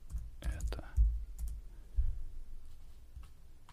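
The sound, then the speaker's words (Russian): A search is typed on a computer keyboard as a few soft, scattered key clicks and taps, faint and irregular, with low thumps between them. “Давай посмотрим тоже. Я пишу в поиск”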